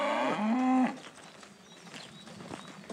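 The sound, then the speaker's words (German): Cattle kept on moving pasture on the outskirts of Hamburg in spring: one cow lets out a long, deep moo that rises and then cuts off, followed by quiet outdoor ambience with a few faint chirps. “Am Stadtrand Hamburgs betreiben sie viel Aufwand bei ihrer Rinderhaltung. Mit wandernden Tieren.”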